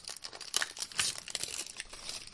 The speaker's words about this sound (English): Pull it open. Oh, you even taped it to the plastic.